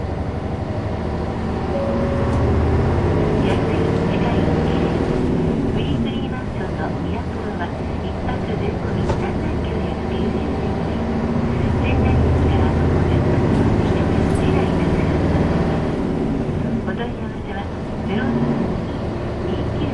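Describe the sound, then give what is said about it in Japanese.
Engine rumble and road noise fill a city bus driving in Sendai, Japan, a steady, even drone throughout, with a voice speaking over it. “Our next stop is 仙台Teishin Hospital. If you would like to get off the bus here, please push the button nearest to you.”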